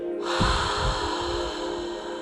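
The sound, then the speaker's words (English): A deep breath drawn in and pushed forcefully out through the mouth as a meditation breathing exercise, heard as a loud, steady, airy rush of breath that carries on without talk. “it's going to sound something like this. You breathe in, hold it, and exhale.”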